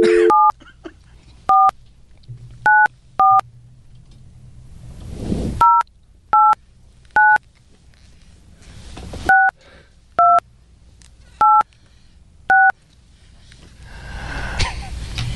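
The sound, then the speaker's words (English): Telephone keypad tones ring out as a phone number is dialed: a string of short, bright beeps in small, unevenly spaced clusters, with a low hum and rustling between them. “You dialed with your tongue out like Michael Jordan going for a layup.”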